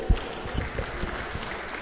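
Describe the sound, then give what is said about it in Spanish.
Faint applause from an audience for a volunteer, a soft, even patter of many clapping hands that holds steady for the whole short stretch. “Muchas gracias, Toño. Un aplauso, por favor, a Toño.”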